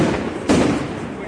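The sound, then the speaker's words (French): A single sharp bang rings out as a tear gas grenade is fired during a street riot. The brief burst stands out over a steady rumble of background noise. “On est complètement encerclé là par les bombes lacrymogènes.”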